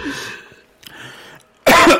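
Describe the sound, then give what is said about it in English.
Coughing after someone chokes: faint throat noises lead up to a single loud, harsh cough near the end. “Oh, excuse me. I just choked.”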